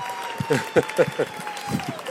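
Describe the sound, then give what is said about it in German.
Audience applause at a sneaker presentation, a moderate patter of clapping with a few voices briefly rising over it. “Vielleicht aber an dieser Stelle nochmal einen besonderen Applaus.”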